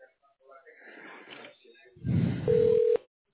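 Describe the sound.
A telephone being dialed gives a single steady electronic tone that lasts about half a second, following a stretch of rustling handling noise and a louder low thump.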